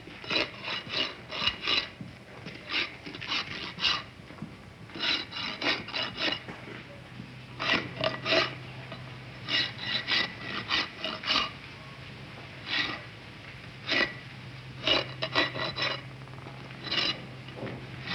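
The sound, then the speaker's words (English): A rasp files slowly in short bursts of gritty scraping strokes, each burst broken by little pauses, with a faint steady low hum beneath. “Wait a minute, he's not filing that fast. I'll do it slower.”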